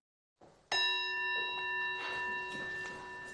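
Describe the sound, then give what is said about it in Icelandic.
A handbell rung by the president of the Icelandic parliament at the close of its session: one bright metallic strike that rings on with a steady, sustained tone, heard alone without talk. “Þarna sló forseti Alþingis í bjöllu í síðasta sinn í sumar.”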